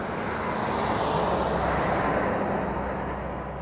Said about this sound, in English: So here comes a truck.